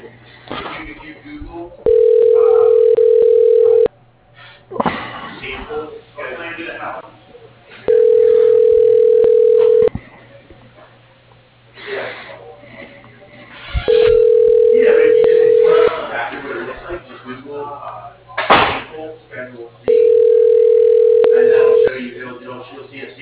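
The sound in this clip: A telephone ringback tone plays while a call to a business line is transferred. Four steady, mid-pitched rings of about two seconds each come at even intervals, with a voice talking underneath.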